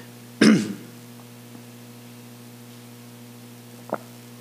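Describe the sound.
A single rough throat clearing interrupts a reading of scripture during a sermon: one loud burst under half a second long. A steady low hum and a faint small noise near the end follow.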